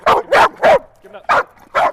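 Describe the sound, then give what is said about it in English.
A dog barks on command during obedience training, giving five short, loud, sharp barks in a fairly even rhythm. “You don't want this dog to continue to bark, so you want him to be down and quiet. So I'll give him the command to bark, and then I'll give him the command to go down and be quiet, which is still.”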